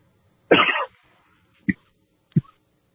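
Coughing and throat clearing from someone with a sore throat after a recent bug: one longer harsh, rasping burst, then two short gruff clears, alone in quiet.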